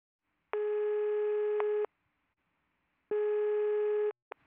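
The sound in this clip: Telephone ringback tones sound while a call is placed to a dental practice. Two long, steady buzzing tones are separated by a silent gap, then a brief blip follows.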